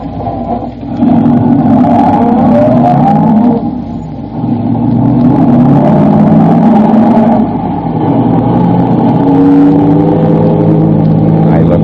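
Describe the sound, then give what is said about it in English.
A car engine rumbles loud and steady as the car drives off, the drone running continuously with shifting tonal whines and a brief dip partway through. “I'm going to drive back to the atomic center.”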